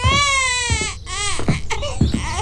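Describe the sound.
An infant cries in loud, harmonic wails, rising and breaking into a few sobbing bursts with short catches of breath between them. The cry carries on alone without any talk.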